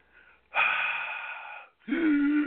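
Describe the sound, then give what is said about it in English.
Wheezy breathing of a woman who smokes: a faint short breath, then two longer harsh breaths with a whistling, tonal rasp, the last lower and rougher. “Okay, she smokes. She's wheezy.”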